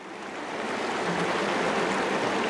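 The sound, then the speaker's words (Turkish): River rapids rush in a steady, dense roar of churning water that swells slightly at the start and then holds an even, hissing level. “Önümüzde büyük akıntılar var.”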